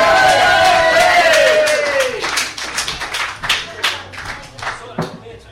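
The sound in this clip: At a cabaret evening, an audience cheers and applauds for an act. Loud whooping cheers slide downward in pitch at first, then give way to lively clapping that gradually thins into scattered claps.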